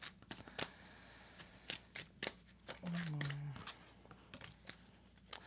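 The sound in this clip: Tarot cards being shuffled and drawn: many sharp, dry snaps and flicks at an irregular pace, with a brief low hum partway through.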